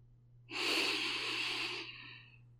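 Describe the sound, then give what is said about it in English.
One deep centering breath drawn in slowly, a loud, airy rush that holds for over a second before thinning into a softer tail, over a steady low hum, with no talk. “First, let's begin with a centering breath. Take an inhale”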